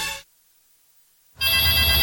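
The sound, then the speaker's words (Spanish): An intercom rings with a harsh, buzzy electronic tone rich in harmonics. It cuts off briefly, leaving about a second of silence, then sounds again and holds steady to the end. “¡Contesta tu citófono, po, que estoy ocupada!”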